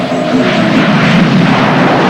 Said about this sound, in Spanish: Los vehículos militares siguen de cerca al avión.